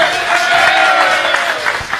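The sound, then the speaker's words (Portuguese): Crowd applause for the Extra supermarket at a live Black Friday promotion, a dense, steady wash of clapping that stays loud throughout. “Uma salva de palmas para o Extra.”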